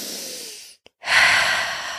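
A deep breath in and out, taken as a slow relaxation exercise. A long airy inhale fades into a brief silence, followed by a fuller, louder exhale through the nose or mouth, with no talking.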